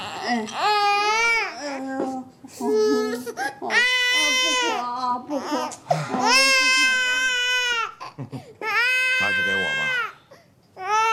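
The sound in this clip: An infant crying loudly in repeated high-pitched wailing bursts with brief catches of breath between sobs, continuing throughout.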